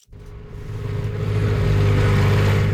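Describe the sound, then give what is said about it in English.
Outboard motor of a small Zodiac inflatable boat crossing to Cockburn Island, building to a loud, steady engine roar over the first second and then droning evenly. “Just getting to Cockburn Island can be an adventure. Nick picks me up with his small Zodiac inflatable. There's just enough room for him and me.”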